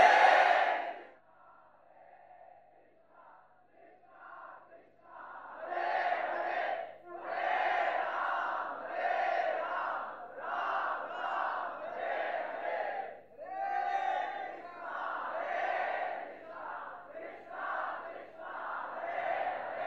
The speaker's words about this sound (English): I request you to chant much louder, please.